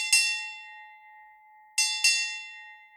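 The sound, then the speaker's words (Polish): A ship's bell rings out watch half-hours in pairs: one ringing strike, a pause, then two quick strikes close together, each bright metallic tone sustaining and slowly fading alone. “Załoga Mary Rose również słyszała bicie dzwonu, który odliczał godziny wart. Dzwon dzwoni w parach”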